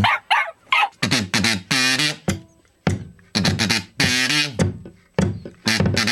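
A kazoo buzzes through a pop song melody in short, nasal notes grouped into phrases, with brief gaps between them. The playing is fairly loud and has a wavering, vocal-like tone.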